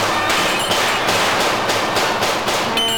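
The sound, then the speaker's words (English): Gunfire from guns emptied at Wonder Woman, with bullets ricocheting off her bracelets: a dense, continuous burst of rapid shots, loud throughout with no pauses. “She's moving her arms as fast as the bullets themselves, so they ricochet off her bracelets.”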